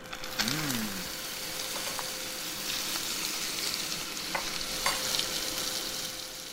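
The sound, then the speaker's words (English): Burbot liver frying in a pan in a Helsinki kitchen gives a continuous crackling sizzle with scattered sharp pops, a short pitched squeal near the start and a faint steady tonal hum underneath, with no talk. “All right, first I'm going to fry the liver.”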